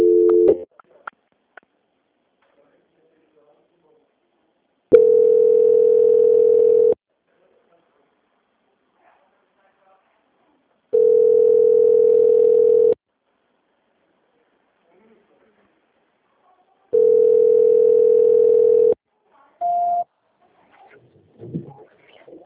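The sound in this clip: Telephone tone while a call is being transferred: three long, steady mid-pitched tones of about two seconds each, separated by long silences, with a shorter, slightly higher beep after the last one.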